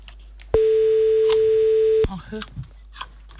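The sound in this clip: A steady telephone line tone sounds while a caller is being dialed, held unbroken for about a second and a half and then cut off abruptly, followed by faint scattered noises.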